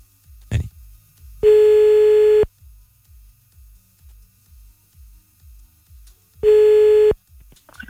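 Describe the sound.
A telephone ringback tone sounds while a call is placed on a French line. It plays twice, about five seconds apart. Each ring is a steady, mid-pitched tone lasting roughly a second, over a faint, regular low thumping.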